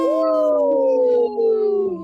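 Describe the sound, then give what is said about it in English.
People imitate a wolf howl with a long, sustained, tonal cry that slides gently downward in pitch. It stays loud throughout, with one brief break partway through. “let's give a big howl. Howl!”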